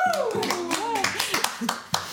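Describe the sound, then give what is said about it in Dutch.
An audience claps for a new announcement: sharp hand claps come in quick, scattered succession while voices whoop and call out over them, rising and falling in pitch. “Waarvoor applaus!”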